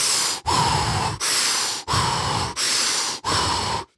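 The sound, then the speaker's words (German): Fast, deep breathing at full power during an intensive breathwork session: six loud, rushing breaths follow each other in a steady, quick rhythm, separated by short pauses, with no talking. “Also wirklich, in dem Tempo, volle, volle Power, richtig tiefe Atemzüge.”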